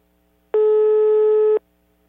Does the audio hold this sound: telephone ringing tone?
yes